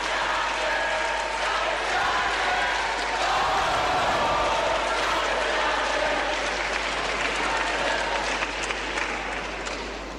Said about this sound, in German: Großer Jubel brandet auf bei der Ankündigung, jetzt alle Polen und polnischsprachigen Pilger zu begrüßen.